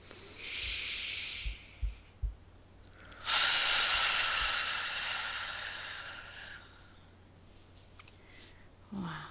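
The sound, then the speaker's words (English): A deep breath taken during a guided breathing exercise, with hands over the chest: a soft hissing inhale of about a second, a few light clicks, then a longer steady exhale lasting around three seconds, quiet and alone. “put your hands over your heart chakra or center of your chest and say the word transform and take a deep breath.”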